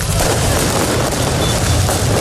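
Fireworks exploding during a street celebration of a championship win in Paris: a dense, continuous barrage of loud booms and bursts blending into one another, with no distinct gaps between them.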